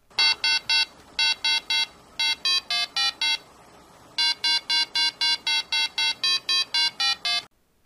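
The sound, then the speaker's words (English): Rapid electronic beeps from a 1970s Parker Brothers Merlin handheld game: many short, bright, buzzy tones in quick groups, the pitch stepping from note to note, then a short pause and a longer even run before it stops. “If you guessed Merlin, the electronic wizard, you were correct.”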